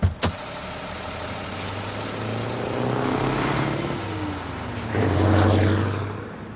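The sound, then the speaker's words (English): Trucks and cars come and go at a highway rest area, with a steady rumble of engines and vehicles passing by and revving, the engine noise swelling louder toward the end. “I'm still fascinated by the beautiful ballet of vehicles that comes and goes.”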